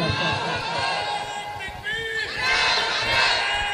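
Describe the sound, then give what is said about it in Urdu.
A crowd at a religious gathering shouting a slogan in unison, loud massed voices that dip briefly near the middle and then swell louder toward the end. “ارے مجمع میں کوئی ہے جو ایک نعرہ بلند کر دے ایک دیوانہ نعرہ لگا دے”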